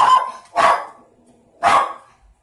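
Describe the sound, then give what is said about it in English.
Three loud, sharp barks from a pet dog greeting someone, each a short bright burst, with brief quiet gaps between them and no talk. “my dog is starting to say hello”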